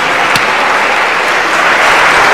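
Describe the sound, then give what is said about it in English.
Audience applause: a dense, steady wash of clapping that holds at an even, loud level from start to finish, with no voices standing out. “Well, whoever did it, you did a fine job. I must give you tremendous applause.”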